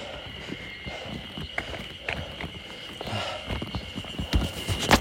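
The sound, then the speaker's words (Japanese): A hiker's footsteps crunch and scrape over a rocky limestone trail on Hakkenzan. The irregular steps are steady at first and grow denser and louder toward the end. “裏側今歩いてるところです岩場にね鎖がこう鎖がついてて”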